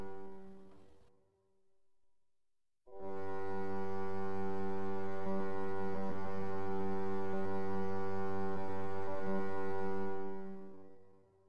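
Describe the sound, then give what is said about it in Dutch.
A low, soft horn-like drone, a lighthouse light signal converted into sound. A short tone fades out first. After a pause, one long, steady tone holds for about eight seconds before dying away. “Ter impressie hebben we het lichtsignaal van de vuurtoren omgezet in een geluidssignaal dat u nu op de achtergrond hoort als een soort verre hoornklank.”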